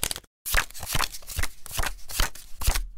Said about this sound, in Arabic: يلا خدي ورقك، وادي اول كارت، انزلي بقى بورقك اهو